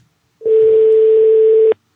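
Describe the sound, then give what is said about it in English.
A single voicemail beep: one steady, mid-pitched electronic tone held for about a second and a quarter. It sounds loud and alone, with quiet before and after. “The person whom you're trying to reach is currently unavailable. Please leave a message after the beep.”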